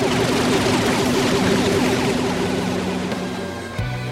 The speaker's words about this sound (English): Their bolstering wasted just enough time for me to charge the smother ray. Fire!